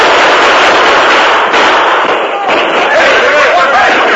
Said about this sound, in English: The alert soldiers responded quickly, firing their hard-hitting carbines at the flashes of the outlaws' guns.